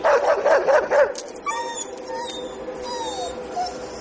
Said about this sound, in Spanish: Kevin se detiene frente a una anciana que sujeta al perro con una correa